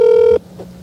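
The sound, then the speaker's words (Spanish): A telephone tone sounds as a call is being placed: one short, steady, clear beep that stops abruptly, followed by quiet line hiss. “lo que voy a hacer es que voy a hacer una llamada.”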